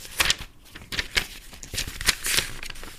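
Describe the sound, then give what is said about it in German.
Paper pages being leafed through while someone searches for a particular page: a quick series of crisp rustles and flicks, irregular and fairly soft, with short gaps between the bursts. “Einen Moment, ich äh, suche die Seite.”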